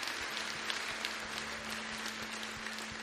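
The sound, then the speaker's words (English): A church audience applauding to welcome new members during a morning service, a dense, steady wash of clapping that holds evenly throughout. “Can we put our hands together and just welcome some people into God's family this morning?”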